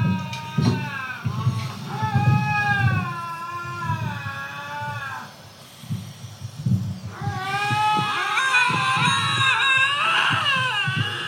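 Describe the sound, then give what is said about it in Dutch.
A cat yowling in long, wavering, wailing cries that sound like a screaming baby, loud and drawn out, with a brief lull midway before a more intense, layered bout of howls. “Ik vind dat katten klinken heel erg als krijsende baby's.”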